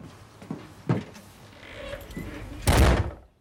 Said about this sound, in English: She lets herself in with the key, then kicks the door closed behind her.